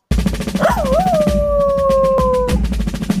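A dog howls once. The howl opens with a wavering rise and fall, then holds a long, steady tone for about two seconds before stopping, over continuous background noise with regular faint ticks.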